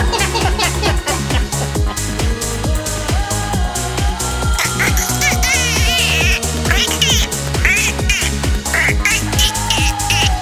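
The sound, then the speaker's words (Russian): A voice imitates a duck, making nasal quacking sounds over loud, rhythmic music with a steady beat. “Опять ты квакаешь?”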